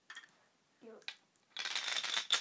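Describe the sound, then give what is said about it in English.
A marble rolls with a quick run of small, rattling clicks that grows louder toward the end, after a few faint knocks and a brief voice sound; quiet overall. “Goes click, click, click, click, click, click, click, click, click. Doesn't it? It's not very interesting because you can't see what the marble's doing. I suppose you can hear it.”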